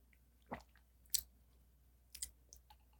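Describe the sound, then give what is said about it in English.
Lip smacking while tasting a homemade mixed drink: a few faint, sharp, wet mouth clicks spaced irregularly over a quiet background. “This is compelling audio. It's just me, yeah, like lip smacking.”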